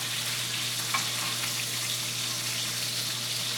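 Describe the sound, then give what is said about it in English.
Bacon frying in a pan gives a loud, steady sizzling hiss that holds constant throughout, with no voices over it. “See, hold on. I gotta flip my bacon. Hold on.”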